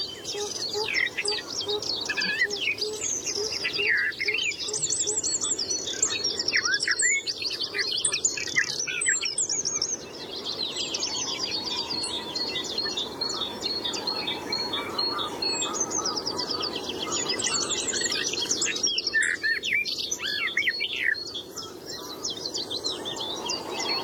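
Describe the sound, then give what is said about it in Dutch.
Birdsong with a rapid, gull-like muttering chatter, a soft, subdued warble, set among many high chirps and a steady insect buzz that run through the whole stretch. “meeuwachtig gebrabbel. Een beetje binnensmonds gebrabbel. Het is geen hele opvallende zang tussen al die zangvogels. Maar wel een mooi kenmerkend geluid.”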